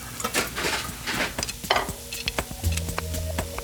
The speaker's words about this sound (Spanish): Bueno, ya tengo el arroz listo, estaba salteando la cebolla justo